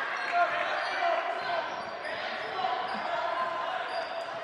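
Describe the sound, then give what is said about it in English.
A basketball is dribbled during a Cass City versus Sandusky game, its rhythmic bounces set against a steady wash of background noise. “Shayla McIntyre with a dribble for Cass City.”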